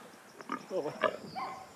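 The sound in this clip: A sow and her piglet grunt in a few short, soft, rough snorting bursts over a quiet background.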